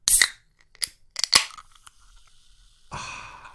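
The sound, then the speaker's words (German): Can of Almdudler soda being opened: a sharp metallic crack, a few quick clicks of the tab, then a soft fizzing hiss at the end. “eine Dose Almdudler. Und wir hören mal, wie das klingt, wenn man die hier aufmacht.”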